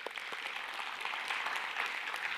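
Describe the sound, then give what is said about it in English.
Faint audience applause at a church gathering: a brief, steady patter of many hands clapping at low, even volume. “so give them a hand.”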